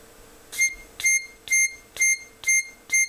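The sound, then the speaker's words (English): A phone alarm sounds as six bright electronic beeps, evenly spaced about half a second apart. Each beep is short, high and equally loud, with quiet gaps between them. “All right, here's a phone alarm.”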